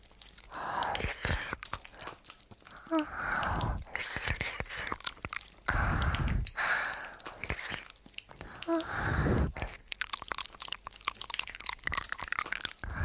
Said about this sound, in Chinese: 那么，我要开动了。